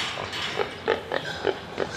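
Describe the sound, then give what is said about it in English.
Several grunts and oinks from a large pig entered in a pig competition at an agricultural show, short rough bursts at an uneven rhythm over steady background noise. “Oh, there's another entrant approaching us. That's quite a large pig.”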